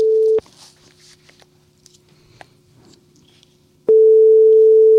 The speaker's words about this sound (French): on va l'appeler parce que maintenant que notre système tout moderne, eh bien, on peut appeler les gens.